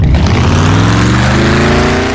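A powerful car engine revs hard on INA Classmaster fuel. The loud, sustained roar climbs steadily in pitch throughout.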